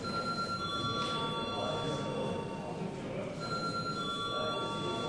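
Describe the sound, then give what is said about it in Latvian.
A bell rings in a parliament chamber to call deputies to a vote. It is a faint, continuous, steady ring that runs for several seconds over broad background noise, with a brief dip partway through. “Lūdzu zvanu.”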